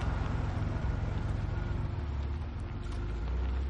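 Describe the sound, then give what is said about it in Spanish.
A car engine hums in a steady low rumble as the car turns right into a cemetery, continuous and even throughout before cutting off abruptly at the end. “El coche gira hacia la derecha para entrar en un cementerio.”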